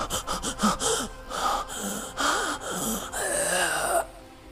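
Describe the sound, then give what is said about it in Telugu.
A man gasps and chokes for breath with his throat tightening: many ragged, strained gasps and moaning, wheezy breaths come in loud, uneven bursts, with no other voices. “ఆదికేశం ఊపిరాడక కొట్టుకుంటుంటే ఆ అమ్మాయి అలానే చూస్తూ ఉంది. గొంతు బిగుసుకుపోయి”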